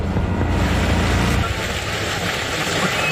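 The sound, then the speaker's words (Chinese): Strong gusting wind in a storm, heard from inside a car: a loud, low, buffeting roar that is heaviest in the first half and then thins into a broader rushing hiss. “感觉非常奇怪。先是非常平静，然后开始狂风大作。”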